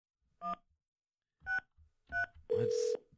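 Telephone keypad tones dialing a number: three short, separate two-note beeps, followed by a longer, louder tone with a buzzier edge.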